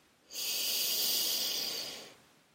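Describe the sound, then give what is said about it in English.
One slow, deep breath drawn in through the nose: a steady, airy hiss lasting nearly two seconds, heard alone against quiet. “One more time, take a deep breath in through your nose.”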